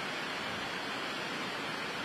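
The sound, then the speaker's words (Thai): Heavy rain falls at a Bangkok governor-election polling station at Wat Chai Mongkhon school in Pathum Wan. It makes a dense, even hiss that stays constant and fairly soft throughout, with no voices. “ส่วนนึงอาจจะเพราะว่าบรรยากาศนะคะสภาพอากาศที่แปรปรวนฝนตกลงมาอย่างหนักเลยค่ะตอนนี้”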